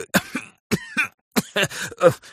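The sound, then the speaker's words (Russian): A fit of many short, harsh coughs comes in uneven bursts. The coughs are loud and partly voiced, with brief pauses between groups. “Кашель”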